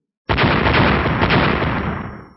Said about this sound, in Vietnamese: Trên không trung, tiếng nổ vang không ngừng